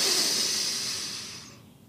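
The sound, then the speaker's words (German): A deep breath drawn in through the nose, a soft airy hiss that is strongest at the start and fades gradually over about two seconds, with no talk. “Atme tief durch die Nase ein.”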